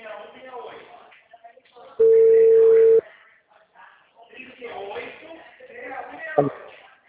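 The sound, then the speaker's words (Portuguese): A single steady ringing tone on an outgoing telephone call lasts about one second, sitting alone between stretches of people talking. “Está chamando.”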